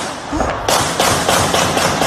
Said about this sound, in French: Un homme vient de tirer à plusieurs reprises avec une arme automatique